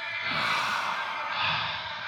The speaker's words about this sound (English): In and out. Breathe in and breathe out.